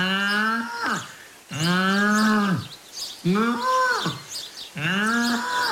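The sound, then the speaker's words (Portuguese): A calf bellows four times, each drawn-out moo about a second long with a rich, strongly tonal voice, separated by short pauses. “a previsão do resultado do jogo Portugal-Uzbequistão no próximo dia 23, feita pelo nosso animal adivinho do Mundial, o bezerro que colheu o Paulo Núncio.”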